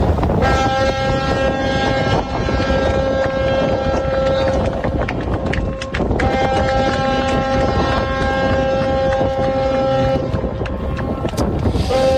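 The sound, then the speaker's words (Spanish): A ship departing from the port of Granadilla, bound for Rotterdam, gives off a loud, steady engine drone with sustained humming tones that hold constant and unbroken for the whole stretch. “a las 7 de la tarde en punto sale del puerto de Granadilla, destino Rotterdam, con 32 personas a bordo y el cadáver de la alemana fallecida, que era la tercera víctima. Este era el sonido cuando estaba saliendo.”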